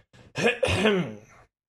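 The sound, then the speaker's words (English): A man clears his throat in a short, gravelly, voiced rasp made of a few bursts that trail off, with no words spoken. “And then he steps over to the group and clears his throat, as he's wont to do.”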